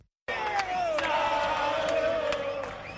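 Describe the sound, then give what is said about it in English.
Argentine football fans serenading Diego Maradona chant loudly in unison, with massed voices holding a slowly falling melodic line and a few sharp bangs cutting through the singing. “In Argentina, fans of football icon Diego Maradona serenade.”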